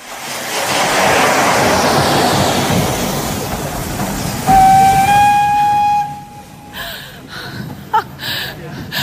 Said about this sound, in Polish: Więc wysiedliśmy z żoną na dworcu.